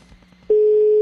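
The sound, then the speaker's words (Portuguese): A telephone ring tone sounds on a line: one loud, steady, unbroken tone starts midway and holds to the end, after a quieter stretch of low background noise. “Tem que atender. Tudo bonitinho, tudo bonitinho. Primeiro toque.”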